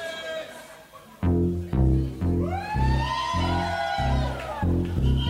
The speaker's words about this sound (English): And if you want to play polka, you have to put the Wechsel bass in your bass. And it sounds like this.